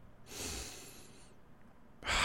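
A person takes a long, airy breath in, then a louder, sharper rush of breath follows near the end, with no talking.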